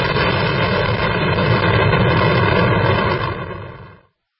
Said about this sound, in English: Wow, so we have liftoff on this show.